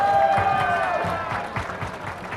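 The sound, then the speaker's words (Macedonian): An audience at a public event gives a team a round of applause. The clapping is a steady, continuous wash that stays at a moderate level throughout, with faint tonal sounds underneath. “Ќе ве замолам еден голем аплауз за нив. Ајде, ние можеме и по-голем аплауз да дајме.”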